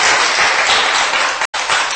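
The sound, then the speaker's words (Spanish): Congregation clapping hands during a Spanish-language church service, a loud, dense roar of many hands that cuts out for an instant before resuming. “Dele palmas porque Él es bueno en gran manera con nosotros,”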